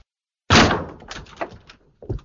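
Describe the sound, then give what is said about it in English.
A stubborn door being forced wide open: a sudden loud thudding bang, then several fainter knocks and rattles, and one more bump near the end. “now I open wide the door. Stupid door!”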